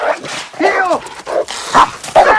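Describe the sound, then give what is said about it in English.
A dog barks and yelps while chasing a person back and forth across a backyard. A few loud, rough, harmonic bursts come in quick succession, with whining tones between them. “The dog takes a step forward. Rooney backs out and runs. The dog chases him back and forth across the backyard.”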